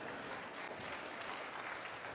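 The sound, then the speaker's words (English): Audience applause: faint, dense and steady clapping from a crowd, continuous and even throughout without breaks. “Yeah, give her a round of applause, right?”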